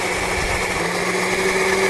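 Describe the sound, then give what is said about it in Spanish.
A blender liquefies a coconut filling with a steady, even motor whine that holds a constant pitch throughout, with no pauses. “Un poquito más vamos a licuarlo.”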